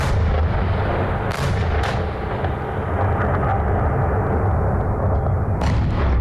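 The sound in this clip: Artillery bombardment of a capital city at night during a long overnight attack: a continuous deep, rolling rumble with a few sharp, loud blasts breaking through it.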